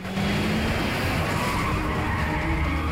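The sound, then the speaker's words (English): Engines roar and tires skid as two cars race side by side along a road with a taxi between them, swerving across the lanes. The dense roar and screech are loud and continuous throughout, with no pauses. “The two vehicles race along a road parallel with each other, but with a yellow taxi cab between them.”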